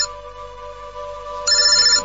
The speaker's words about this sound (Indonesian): Saat itu aku mendapat sebuah telepon.